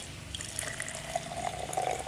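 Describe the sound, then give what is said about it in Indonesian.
Warm water is poured slowly into a glass with a spoonful of coriander seeds, making a faint, steady trickle with small splashes. “Kemudian kita masukkan air hangat di sini pelan-pelan.”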